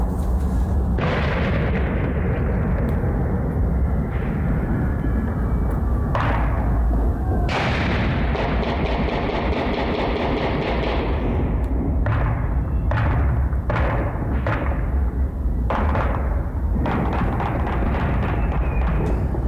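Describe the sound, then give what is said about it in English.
Gunshots and explosions ring out during a neighborhood celebration in Kansas City: a dense, continuous barrage of loud booms, thuds and sharp cracks, with many overlapping bursts and no pause across the whole stretch. “people shooting off guns blowing stuff up. I thought somebody was just playing Call of Duty in their apartment. The celebration was so big it showed up on the National Weather Service radar.”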